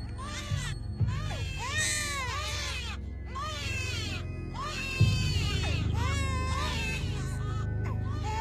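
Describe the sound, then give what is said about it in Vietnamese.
A newborn baby crying: repeated high, wavering wails that arch up and down in pitch, with short breaks between them, over a steady low background sound. “đột nhiên lại thêm một tiếng khóc nữa vang lên”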